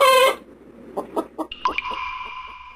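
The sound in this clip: Chicken clucking: a few short, separate clucks, then a longer, drawn-out squawking call. A brief bright tonal sound comes before them.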